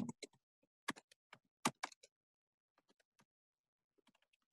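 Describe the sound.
Someone types an article on a computer keyboard, producing sparse, faint keystroke clicks in irregular clusters. There are a few quick bursts early on, then scattered single taps with short gaps between them.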